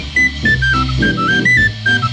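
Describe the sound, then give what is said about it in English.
An old ten-cent tin whistle plays a bluesy riff of short, high notes that step down and up over a steady low accompaniment. The notes come in loud, clipped phrases. “When my old 10-cent tin whistle plays the blues.”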